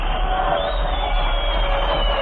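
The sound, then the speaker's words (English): A crowd in a recreation hall yells and cheers, whipped up before a band's session. Many voices merge into a steady, loud roar that holds at an even level throughout. “We'll go ahead and yell. I'll whip up enough applause in this recreation hall to dislodge your uppers. Yell, man. Yell!”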